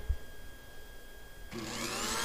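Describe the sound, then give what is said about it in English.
A household blender switches on partway through and runs as a steady whirring motor hum that swells slightly and continues to the end. The sound is faint and heard alone. “okay, turn on the blender”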